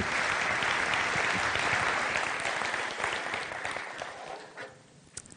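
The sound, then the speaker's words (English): Audience applause welcomes a speaker at a church gathering: dense, sustained clapping from many hands that stays steady, then thins and softens toward the end. “would you just join me and let's put our hands together and give Maureen a warm Commonway welcome”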